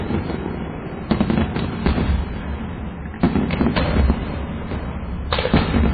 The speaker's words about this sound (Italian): Sta accendendo la carica della batteria di 30 missili e scappa a... l'ha acceso con la sigaretta, ecco, ora sono sparati uno dopo l'altro.